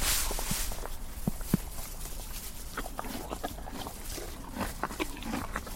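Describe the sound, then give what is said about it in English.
Horses munching on their feed, with faint, soft crunching bites repeating in an irregular rhythm. “I just love the munchie sound. It's so relaxing.”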